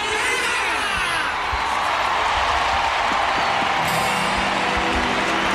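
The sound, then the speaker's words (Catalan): A stadium crowd cheers as the Popemobile enters through one of the goal ends, a loud, sustained roar of voices mixed with applause. “Aquesta és la reacció de l'estadi.”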